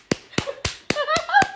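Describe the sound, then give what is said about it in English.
Six sharp, evenly spaced slapping smacks imitate the sound of Justin Theroux jogging in sweatpants. The crisp smacks land in a quick, steady rhythm. “This is what it sounds like when Justin Theroux's jogging.”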